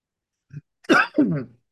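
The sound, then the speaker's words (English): Coughing and throat clearing from a person who has just choked on their own saliva: a short, faint catch followed by two harsh, rasping bursts close together, with no speech. “excuse me, I choked on my own spit”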